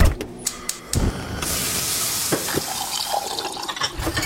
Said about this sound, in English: But what about those sounds? Those are the sounds of a new kitchen package of state-of-the-art appliances with innovations to make everything from meal prep to cleanup easier.